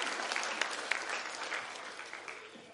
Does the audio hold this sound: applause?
yes